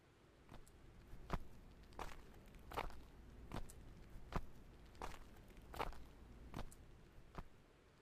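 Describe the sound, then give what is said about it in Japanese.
Steady footsteps walk along a path toward an island lighthouse after arriving at the harbor, many even, moderately loud steps in a regular rhythm with no talk. “目的地である硫黄島灯台まで歩いていると”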